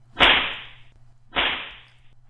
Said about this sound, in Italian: il Can Barbone, seduto a cassetta, schioccava la frusta a destra e a sinistra